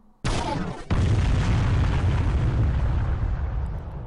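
Video game smart bomb explosion: a sharp blast is followed moments later by a heavier second boom. A loud, sustained rumbling roar then fades slowly toward the end.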